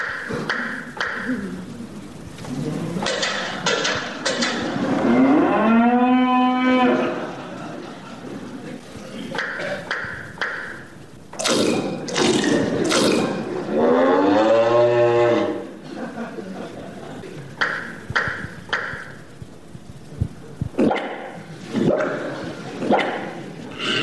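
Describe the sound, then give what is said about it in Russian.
Cow mooing sounds during a staged milking scene in a theatre play: two long, drawn-out moos with wavering harmonics, separated by short sharp bursts of other noise, with voices heard at times. “Тот хватается за вымя, вы слышите звук молочных струек и мычание.”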